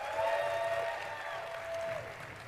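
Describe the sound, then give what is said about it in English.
Applause from a conference audience as a presenter leaves the stage: a short, steady wash of clapping with a sustained ringing tone running over it. “can we get another round of applause as you exit the stage carefully?”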